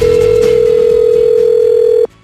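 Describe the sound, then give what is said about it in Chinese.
A telephone tone from a dialed call that is busy: one clear, steady mid-pitched tone holds for about two seconds over soft background sound, then cuts off abruptly. “您所拨的电话忙线中。”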